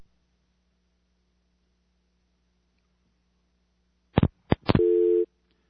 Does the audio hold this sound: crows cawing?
no